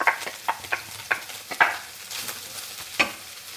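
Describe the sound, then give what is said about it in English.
Mushrooms frying in oil in a pan alongside plant-based bacon: a steady sizzle broken by several sharp clacks of stirring, uneven in rhythm, with no voices. “Then those are started cooking. Add your mushrooms.”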